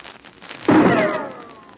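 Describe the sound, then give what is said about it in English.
A single rifle shot fired across a snowy valley on a moonlit night: one sudden, loud, sharp crack that rings on and fades slowly, with no voices. “Did you hear that rifle shot? It came within inches of Pat Ryan as he stood with the mountain hermit, Nimeru, in the moonlight. Somebody fired the shot from across the snow valley.”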